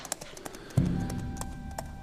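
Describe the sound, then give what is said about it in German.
Hoofbeats of a horse turning and riding off at a trot with companions: a few light taps, then a sudden steady low rumble of hooves that carries on to the end. “Old Shatterhand sein Pferd und ritt, gefolgt von seinen Gefährten, davon.”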